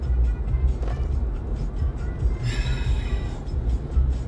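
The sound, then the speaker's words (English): Steady low rumble and road noise from a car being driven on the road, a dense continuous drone with a short brighter hiss rising partway through. “I'm sorry, but I'm doing this while I am driving”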